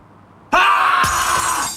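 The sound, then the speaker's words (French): Glass cracking sound effect for a spreading windscreen chip, in a windscreen-repair advert: a sudden harsh crackling burst, then a second sharp crack that carries into a sustained, bright, grinding shimmer. “C'est encore pire quand l'impact se fissure.”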